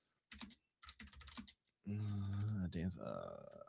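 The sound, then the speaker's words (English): Computer keyboard typing comes in two short bursts of quick clicks, followed by a voice speaking. “It's always so tough when you type in Dance of the Dragons, because then it brings up the books.”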